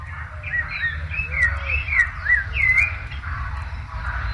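A small thrush, the zorzalito, sings a run of clear whistled notes and short warbled phrases, bright and fairly loud above a steady low hum.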